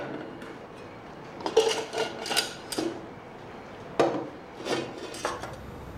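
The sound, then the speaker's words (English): Faint clinks, knocks and scrapes of dishes and cutlery as a hearty broth is stirred in a pot and more dishes are laid out, with several irregular soft impacts over quiet background noise. “A hearty broth is stirred in a pot, and more dishes are laid out for Teresa.”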